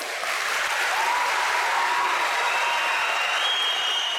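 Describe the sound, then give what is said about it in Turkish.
A crowd in a hall in Bolu applauds JAK commando teams at a 19 May celebration, after they descended about 10 metres with a Turkish flag and an Atatürk poster. Thick, continuous clapping stays steady and loud throughout. “Komandolar dakikalarca alkışlandı.”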